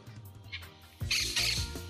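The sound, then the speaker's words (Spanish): Birds squawking in short, fairly faint harsh calls, the louder and rougher bursts coming in the second half. “Qué lindos que son los pájaros, los amo, amo los pájaros.”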